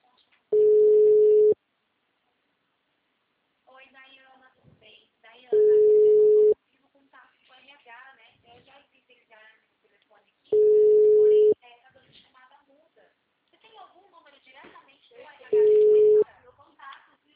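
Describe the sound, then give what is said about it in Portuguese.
Telephone tones on a Claro line: four steady, mid-pitched tones, each lasting about a second and spaced several seconds apart, with a recorded voice speaking in the gaps between them. “Obrigada por ligar para Claro. O número está ocupado.”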